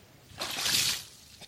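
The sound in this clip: Ice-cold water splashes onto grass during a challenge: one short, hissing burst of liquid that swells and fades within about half a second, fairly faint.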